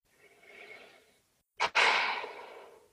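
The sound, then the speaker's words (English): A deep breath: a soft, drawn-out inhale, a brief pause, then a sharp catch and a long, loud, airy exhale that trails away slowly. “They took a deep breath.”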